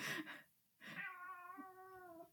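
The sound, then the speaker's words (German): A tomcat meows in complaint. A short, rough cry comes first, then after a brief pause a long, drawn-out, wavering meow. Both are faint and heard alone, without talking. “Eigentlich macht der Kater auch nichts. Okay. Okay. Oh, Melanie hat sich bewegt. Der Kater hat sich wieder beschwert.”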